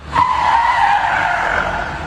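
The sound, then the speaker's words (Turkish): Tires squealing as a car drifts on a road: a loud, sustained high-pitched screech that starts abruptly and holds for about two seconds with a steady, slightly wavering tone. “Drift atıp akrobatik hareketlerle trafiği tehlikeye attılar.”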